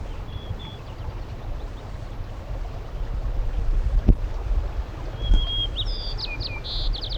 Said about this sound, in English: White crowned sparrow